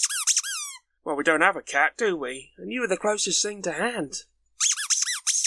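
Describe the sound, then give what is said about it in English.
A rubber duck gives shrill squeaks with a wavering pitch, one burst at the start and another at the end. A man talks in between. “that annoying noise you can hear is in fact Brian. Brian is indeed a rubber duck who was brought on board to keep me company in the shed when I was locked in.”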